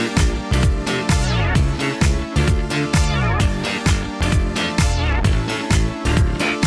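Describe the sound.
A 2010s dance pop track drives along with a funky, punchy bass line, steady four-on-the-floor beat and bright synth layers, loud and continuous with no talking over it.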